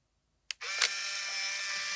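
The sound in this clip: A camera shutter fires as a photo is taken: a sharp click breaks a short silence, a second brief burst follows, and then a steady hiss carries on to the end.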